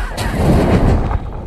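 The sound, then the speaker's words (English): A film sound effect of a fire being lit with a magic umbrella: a loud, dense burst of roaring noise with deep rumble and crackle, sustained for about a second before dropping away. “That's the sound of Hagrid lighting a fire with his magic umbrella in Harry Potter and the Sorcerer's Stone”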